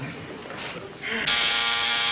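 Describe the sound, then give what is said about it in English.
A buzzer under a table, used to summon the butler and maid, sounds a harsh, steady electric tone. It starts partway through and holds loud and unbroken to the end. “What was that, the back door? No, dear, that was the buzzer. What buzzer? The buzzer under the table that we always use to call the butler”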